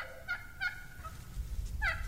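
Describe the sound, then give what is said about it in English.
Wild turkey hen yelp calls: a few short, nasal notes, two close together and one after a pause. They are faint over a low background rumble. “Yep, that's the yelp call. It's usually a hen doing that.”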